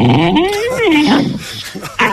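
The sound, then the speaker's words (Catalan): A dog whimpers loudly, its wavering whine rising and then falling in pitch before trailing into a few short, softer sounds. “Era un gos”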